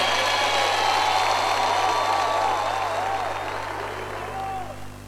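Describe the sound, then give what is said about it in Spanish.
An audience applauds folk performers at the Cosquín festival while a voice speaks over them. The clapping stays loud and continuous, then thins and fades toward the end. “Más fuerte el aplauso para Nahuel Penici, Indio Lucio Roja.”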